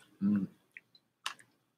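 Someone eating a Polish cake with raisins and a hint of orange hums briefly, then makes a few soft, wet chewing clicks, quiet and spaced apart.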